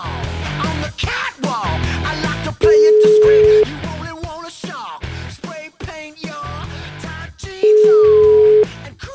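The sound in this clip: A telephone call being placed to a 74-year-old pensioner near Padova: two long, steady ringing tones of about a second each sound between stretches of music and vocal sounds.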